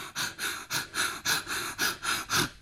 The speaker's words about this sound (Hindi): आपको बहुत तेजी के सांस सांस लेना है और फिर छोड़ना है। जैसे मैं बता देती